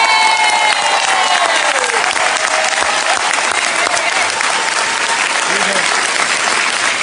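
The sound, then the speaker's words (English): An audience applauds a self-advocate being welcomed to the stage, dense, steady clapping that holds at an even level throughout, with a brief voice or cheer near the start. “Ladies and gentlemen, please give it up for Sam Blease.”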